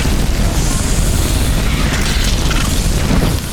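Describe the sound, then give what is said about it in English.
A glowing creature explodes in a video game with a loud, dense roar of noise. The rumbling burst holds steady for several seconds, then eases slightly at the very end. “Whoa, he just exploded.”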